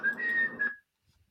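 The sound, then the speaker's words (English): A short whistled tune at a steady, fairly high pitch with a slight break near the end, alone, then silence. “I heard whistling.”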